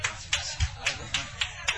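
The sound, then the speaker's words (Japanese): Applause from an audience for a performer: a few sharp, evenly spaced claps, fairly quiet and rhythmic rather than a dense ovation. “皆さんもう一度拍手お願いします。”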